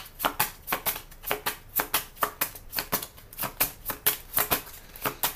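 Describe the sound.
Playing cards being shuffled and handled during a card reading, with many crisp, papery snaps and flicks in a quick, fairly steady rhythm, moderately loud and alone without talk.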